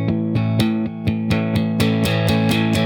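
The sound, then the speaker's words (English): Fingers tap directly on guitar strings instead of strumming them, producing a steady pulse of many evenly spaced, ringing percussive hits, each a sharp attack followed by sustained string tone. “this is played by hitting the strings rather than actually strumming them. So something like this, where you literally just take your fingers and you tap the string,”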